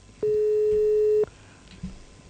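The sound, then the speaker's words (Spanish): Telephone tone on an unanswered call to the police station of Comuna 8: one steady, low beep lasting about a second, then faint line hiss. “No nos van a dar bola, ¿eh? No atienden el teléfono.”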